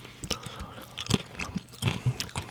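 Crunchy chewing of a cracker with a bland pear taste, heard as several irregular, crisp bites and crunches at a quiet level, with soft pauses between them and no talking.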